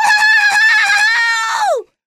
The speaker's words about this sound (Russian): А все до единой кикиморы выскочили и заверещали.